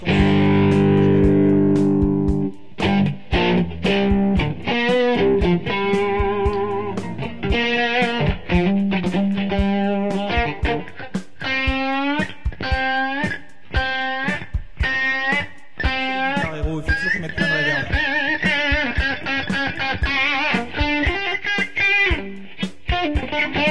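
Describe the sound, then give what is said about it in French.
Distorted electric guitar played through a Marshall JTM45 amplifier: loud, sustained chords and many picked notes ring out in a steady stream, with crisp attacks and thick, overdriven harmonics and no talk over it. “Sur le Marshall, sur un JTM 45,”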